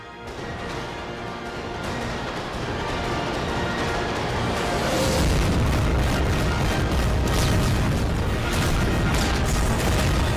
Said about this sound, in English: here's a little clip, and basically you're going to see uh, the the the tyrant's building is being blasted into a million pieces because all of us stood up.